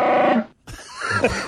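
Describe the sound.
A fart sound effect: a short, buzzy, low rasp lasting under half a second. After a brief silence comes a rougher, mixed burst of noise.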